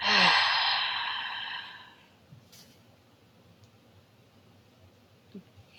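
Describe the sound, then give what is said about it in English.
A deep breath out during a guided breathing exercise: one long, loud, breathy sigh that slowly fades over about two seconds, followed by near silence with a few faint small sounds. “maybe just take a big breath in and a full breath out.”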